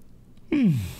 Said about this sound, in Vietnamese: Ngáp.